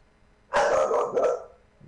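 Dogs bark in a brief, loud burst of a couple of sharp, rough barks in quick succession, then it goes quiet. No one speaks.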